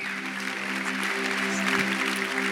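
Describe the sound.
Audience applause at an evening church service welcoming a guest speaker, a steady wash of clapping over a sustained low tone.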